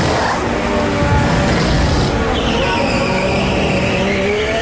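A Formula 1 car accelerates away from a pit stop, a loud continuous roar of engine and tyre noise that holds steady throughout without a break.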